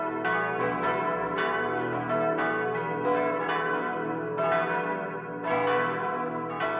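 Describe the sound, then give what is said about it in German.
Six church bells ring together from the tower in Au bei Aibling, a dense peal of many overlapping strikes with long, shimmering resonant tails that blend into continuous ringing. “Und so klingt 6-stimmig vom Turm in Au bei Aibling”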